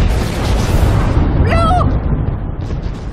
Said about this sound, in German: Doch dann explodierte das Dynamit.